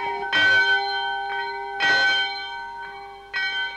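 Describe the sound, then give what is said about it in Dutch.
A small church bell rings for Sunday service at a simple white village church: three clear, evenly spaced strikes at a steady pitch, each leaving a long ring that fades before the next. “Elke zondag roept het klokje de bewoners van de dorpen naar de eenvoudige witte kerk.”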